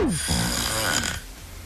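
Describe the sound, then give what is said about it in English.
A person snoring while asleep: one drawn-out, rasping breath with a rough, throaty texture that fades and ends abruptly, with no talk. “That is the sound of Robin Bailey sleeping.”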